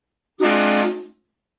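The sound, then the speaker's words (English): A train horn sound effect gives one loud, sustained blast of under a second, steady in pitch and rich in harmonics, heard alone with no talk, then fading quickly. “Hit the train horn for a second, please.”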